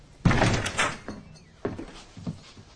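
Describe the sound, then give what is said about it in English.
A door at a rectory is flung open with a sharp, loud bang, then a few softer knocks and thumps follow as it settles. “Suddenly, the door is flung open.”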